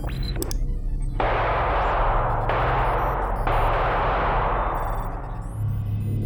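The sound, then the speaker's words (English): A few heavy gunshots fired at a suspect, each a sharp crack followed by a long, rumbling tail, spaced roughly a second apart and loud, with no talk. “Shots fired. Suspect is down.”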